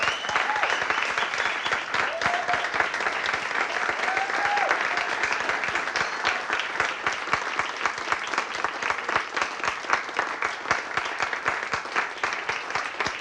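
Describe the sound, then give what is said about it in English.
A church audience gives a standing ovation, with dense, sustained clapping lasting about thirteen seconds at an even level and faint voices mixed in now and then. “Stand up and give them a standing ovation right now.”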